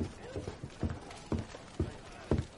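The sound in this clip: Horse hooves clip-clop as guardsmen ride in from the hills: several sharp, uneven hoof strikes in a loose rhythm, moderately loud over a low, rough background.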